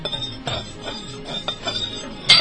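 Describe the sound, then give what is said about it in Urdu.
Evaporated milk and sugar are stirred together in a pan, making a few faint, irregular taps and scrapes of a utensil against the pan. “اب آپ اسے کسی چیز سے start کریں، اچھا ہلائیں اسے ذرا تاکہ اچھی طرح اس میں نا مکس ہو جائے”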